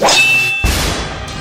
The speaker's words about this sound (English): John surges against his enemy, striking a devastatingly powerful blow against the Major's shield.